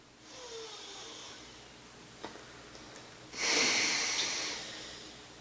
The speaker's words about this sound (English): and then you exhale through the right nostril while covering the left nostril with your ring finger. So it goes something like this.